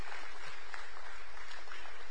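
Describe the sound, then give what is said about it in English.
Church audience applauding in a big round of applause at the close of a sermon, a dense, continuous clatter of many hands at a steady, fairly loud level. “Rusty, a big round of applause.”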